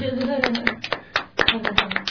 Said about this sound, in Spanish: Eso se merece otro aplauso.